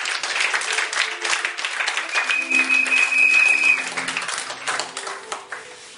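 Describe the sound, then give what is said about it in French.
A church audience applauding and acclaiming the Lord, with steady, dense clapping and voices calling out. A thin, high whistle-like tone sounds briefly in the middle, and the clapping thins toward the end. “Quelque part, acclamez le Seigneur.”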